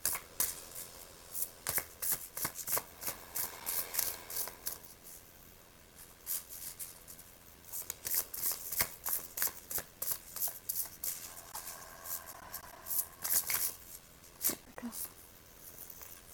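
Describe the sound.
Tarot cards are shuffled and drawn for a daily card reading, giving many quick, crisp papery riffles and flicks. The sound is fairly faint and forms an uneven patter that runs throughout.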